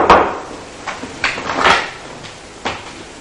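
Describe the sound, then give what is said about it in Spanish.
A door opening, heard as a few wooden knocks and clatters spread over several seconds, moderately loud with a quiet noisy background between them. “La puerta se abre.”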